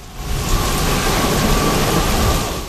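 Heavy rain pours steadily, a dense, even hiss of drops with a low rumble of thunder beneath it throughout, loud and unbroken with no voices.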